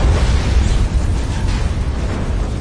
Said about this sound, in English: It exploded with a battering, violent concussion that blew in the buildings on both sides of the street.